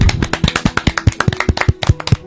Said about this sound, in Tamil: So எல்லாரும் பலத்த கரகோஷங்களை கொடுத்துடலாம்.